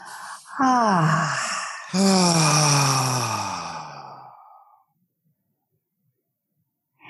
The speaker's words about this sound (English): Okay, breathe up through the feet into the heart.